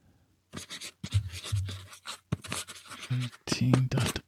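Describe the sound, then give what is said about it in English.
A pen scratches across paper in many short bursts of strokes separated by brief pauses, fairly loud and crisp. “So you're going to write it down again and then act like you're writing it. Hold on. Let me write that down.”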